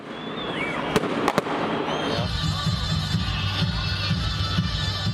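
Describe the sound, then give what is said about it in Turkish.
Crowd noise at New Year's Eve celebrations in central Hatay, Turkey. A few sharp firework bangs crack early on, then a dense, steady din of the gathered crowd fills the rest. “Bu görüntüler birkaç yıl öncesinin Hatay'ın merkezindeki yılbaşı kutlamalarından.”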